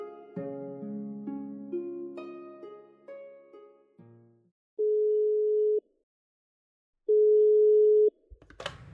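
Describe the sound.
A telephone call connecting: a short descending run of musical notes, then two long, steady ringback tones separated by a gap of silence, followed by a brief noise as the line picks up.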